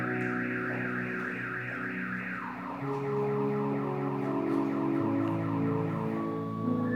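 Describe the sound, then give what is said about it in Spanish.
A car alarm going off, cycling through loud warbling and wailing tone patterns that shift to a steadier, lower sequence partway through, continuous with no voices. “¿Qué carro está sonando?”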